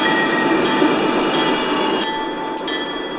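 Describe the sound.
Freight train halting at a red signal: a steady, loud rumble of rail wagons with high, thin wheel squeal ringing throughout.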